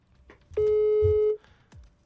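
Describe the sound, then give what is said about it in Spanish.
Ringback tone on an outgoing telephone call: a single steady electronic ring at a constant pitch lasting under a second, with faint background noises before and after. “Ahí está sonando. A ver, conste que no le dijimos que íbamos a marcar.”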